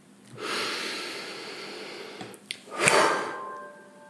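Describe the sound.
A slow, deep breath during a guided meditation: a long airy inhale followed by a brief pause and a breathy exhale with a faint snort, all alone and fairly soft.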